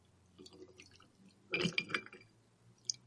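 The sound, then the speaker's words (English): High West Double Rye whiskey is poured into a glass. The pour is faint: a short burst of splashing liquid and glassy clinks falls in the middle, and one small bright clink comes near the end. “that is the sound of me opening up a High West Double Rye whiskey. And what's the sound of you pouring it?”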